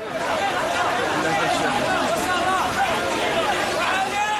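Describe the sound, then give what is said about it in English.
Dense crowd babble from thousands of migrants coming off a beach and heading into the streets of Ceuta, the Spanish enclave in North Africa. Many overlapping voices form a steady, loud hubbub with no single voice standing out. “This is the sound of some of those thousands as they came off the beach and headed for the streets of Ceuta on Thursday.”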